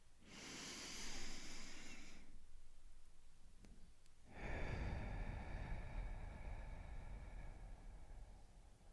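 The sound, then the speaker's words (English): One deep breath is drawn in through the nose and then let out through the mouth during a guided breathing pause. A hissing inhale lasts about two seconds, a short silence follows, and then comes a longer, breathy exhale. “Take a deep breath in through our noses and out through our mouth.”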